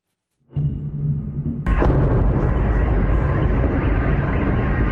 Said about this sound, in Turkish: Bir askerin omuzdan atılan roketle İHA'yı vurmaya çalıştığı sırada çevredeki Türklerin vur vur diyerek cesaret verdiği görüntüler sosyal medyada yayınlandı.